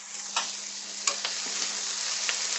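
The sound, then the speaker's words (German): Pointed cabbage sizzles while frying in a pan. It makes a steady, faint hiss with a few sharp crackles and ticks scattered through it, and no voices. “Was ist eigentlich mit meinem Salat, der da vor sich hin brutzelt?”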